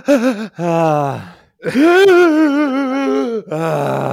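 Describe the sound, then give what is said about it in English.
A voice imitates a grandmother's long, deep wind-up breath before a sneeze: a short voiced gasp, then a long wavering strained 'ahh', then another held vocal tone, loud and with no other sound. “My grandmother used to wind up for sneezes for like 5 minutes. She would start by taking a deep breath. She'd go,”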